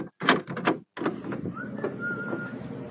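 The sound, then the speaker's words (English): A door opens with a quick run of clunks and rattles from the latch, followed by a thin, drawn-out squeak of the hinge and a softer scraping rustle. “This is the sound of the door opening.”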